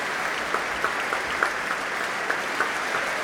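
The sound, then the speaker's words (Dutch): Applause for orchestra musicians: dense, steady clapping from many hands with small louder spikes scattered through, and no talk over it. “Ja, groot applaus ook voor alle muzici nu van het orkest.”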